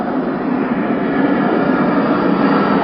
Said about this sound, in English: The airport's really busy tonight.